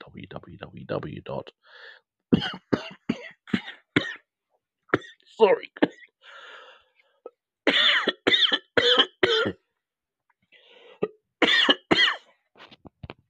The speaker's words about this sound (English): My apologies for the coughing and spluttering. I've just had some tonic water and it went down the wrong hole.